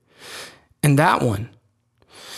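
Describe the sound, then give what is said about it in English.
A speaker's audible inhale, followed by a short stretch of speech and then a second breath drawn in at the end. “The breath I just took,”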